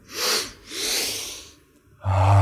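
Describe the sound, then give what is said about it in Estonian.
A deep breath drawn in during a guided breathing exercise, heard as two long, airy intakes of air. A voice then starts loudly at the end. “ja siis ohkame häälega välja ja läheme. Sügavalt sisse.”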